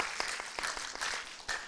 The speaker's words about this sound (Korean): 우리 뜨겁게 박수로 격려해 주시기 바랍니다.